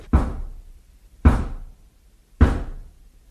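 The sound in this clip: Three heavy knocks on a door, evenly spaced about a second apart. Each is a dull, solid thud with a short decay, heard alone with no voices.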